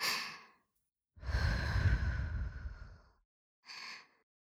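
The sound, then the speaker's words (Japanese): Soft, close breathing right beside the ear: three sighing exhales, a short one, a long breathy one and another short one, with quiet pauses between them. “息がかかる距離まで顔が近づいちゃった。どうかな、私の息遣い感じてる？”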